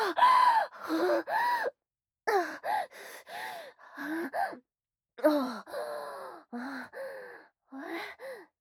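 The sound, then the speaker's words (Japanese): Panting and gasping from a man out of breath: many short, voiced breaths come in uneven bursts separated by brief silent gaps, each strained and wavering in pitch. “ああ、さてはおっさん息切れか。”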